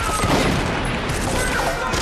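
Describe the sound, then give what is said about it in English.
Gunfire erupts in a gun battle inside a laundry as an armed team shoots its way in, a loud, dense and unbroken barrage of overlapping shots that keeps up for the whole moment. “A full-scale gun battle erupts across the laundry.”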